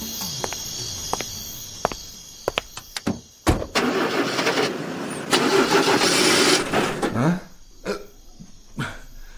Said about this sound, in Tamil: என்னாச்சு? ஏன் ஸ்டார்ட் ஆகல? ஸ்டார்டிங் ப்ராப்ளமா சார்?